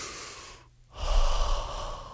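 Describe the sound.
Breathing as someone takes a breath: a soft, airy rush, a brief near-silent pause, then a longer and louder breath, with no talking.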